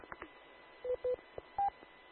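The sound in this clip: Three short, faint electronic beeps from a car satnav in the background, the last one higher-pitched than the first two, over quiet low noise.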